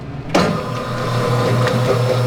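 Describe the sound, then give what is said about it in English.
An electric dough mixer in a bakery, mixing flour and eggs, switches on with a sudden jolt and settles into a steady, even motor hum with a low droning tone. “He's weighing flour, cracking eggs, and adding it all to the mixer. Encendemos la máquina.”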